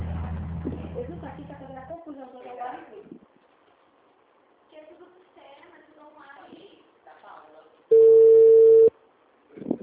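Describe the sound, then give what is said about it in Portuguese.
A recorded voice speaks on a telephone line while the call is transferred to a customer service department, then a single long, steady beep tone sounds before the line goes quiet. “Para garantir seu atendimento, estamos transferindo sua ligação para o nosso saque, Serviço de Atendimento ao Consumidor. Gentileza aguardar.”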